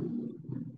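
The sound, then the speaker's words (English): A stomach gurgles briefly with a faint, low, continuous rumble that swells slightly twice before fading. “That was my stomach.”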